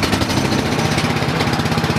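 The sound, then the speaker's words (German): A fire brigade's engine-driven fan with a carburettor runs after being oiled and repaired, a loud, steady, rapid mechanical chatter that continues throughout without pause. “Der Lüfter geht.”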